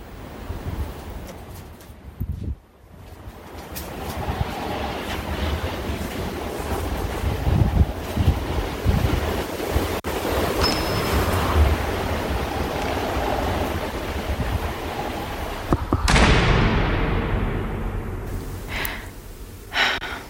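Raging snowstorm wind rushing in a continuous, fairly faint roar with gusting swells and a few sharp bursts, no speech over it.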